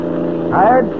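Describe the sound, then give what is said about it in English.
Steady engine drone of a car driving fast, around 70, along a highway at night: a low, constant hum with a short voice fragment over it. “Say, you're certainly pushing this car along. Must be doing 70. Yeah, there's not much traffic on the highway this time of night.”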